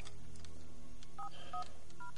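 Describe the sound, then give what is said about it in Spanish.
Three short dual-tone keypad beeps as a mobile phone dials a number, faint and spaced unevenly over a steady low hiss. “Coge el móvil y marca un número.”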